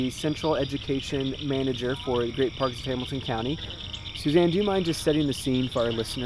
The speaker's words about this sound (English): The frogs will get louder and louder and kind of calling in unison,